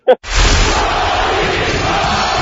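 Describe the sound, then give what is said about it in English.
A Russian crowd in the 1980s roars for an American, a loud, sustained mass of voices that rises abruptly after a short sharp burst at the start and then holds steady. “A Russian crowd chanting the American's name in the 1980s.”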